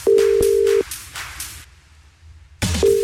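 A telephone line rings out as a radio contest caller is dialed: a steady low electronic tone hums for under a second, cuts to near silence, then resumes just before the end.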